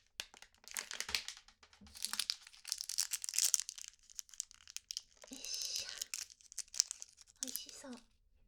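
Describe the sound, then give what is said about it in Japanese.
Crinkly wrapper being opened on a lemon-flavoured black tea hard candy, many sharp, crackling bursts in irregular clusters with short pauses between, fairly faint overall. “紅茶の飴ちゃんなんですけど、レモン味にします。”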